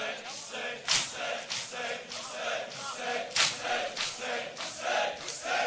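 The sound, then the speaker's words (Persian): A crowd shouting and screaming in loud, rhythmic bursts, voices rising and falling together in repeated waves of raw noise. “آرام آرام آرام آرام همین آرام داد نزن داد نزن داد نزن آفرین آفرین آرام آرام جیغ نزن جیغ نزن”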